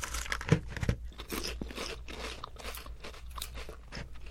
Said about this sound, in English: Should we try these crab shrimps? Sure. I mean, crab chips? Yeah, sure.